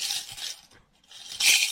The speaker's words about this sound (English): That's the money. That's the money, kids. That's the sound of money.